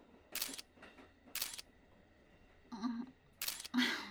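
A camera shutter fires a few times as photos are taken, each release a short, crisp, bright mechanical snap separated by irregular pauses, with a softer, lower clack midway and a final pair of shots close together at the end; no one speaks.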